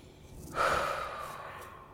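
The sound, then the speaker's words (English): A single deep breath, drawn in with a sudden airy rush and then tapering off slowly into quiet, heard alone without speech. “Deep breath.”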